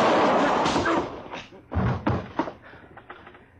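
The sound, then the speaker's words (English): A gun going off into the floor during a struggle: a loud, broad blast that rings and decays over about a second, followed by a few heavy thumps and knocks. “I held his arm so he couldn't get his gun up. It went off right in the floor there.”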